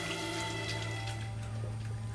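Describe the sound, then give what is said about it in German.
Water runs from a tap while hands are washed: a steady, continuous hiss and splash under a low hum, with no talking. “Lass deinen Vater in Ruhe die Hände waschen.”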